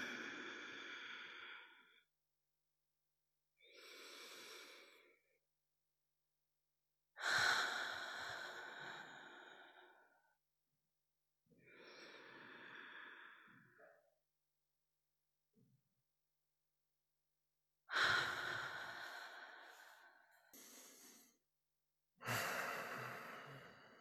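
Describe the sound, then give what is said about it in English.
Slow, intentional breathing at a worship gathering: drawn-out inhales and long, sighing exhales, each separated by quiet pauses. “Let us help our bodies get ready with three intentional breaths together.”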